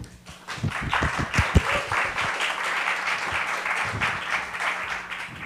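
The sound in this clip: Steady audience applause welcomes two speakers at an AI talk, a dense, continuous wash of clapping that lasts the whole clip, with sharper individual claps near the start.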